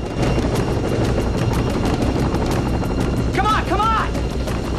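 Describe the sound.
A military helicopter's rotor gives off steady, rapid thudding pulses over a loud, continuous engine roar. A brief voice cuts in near the end.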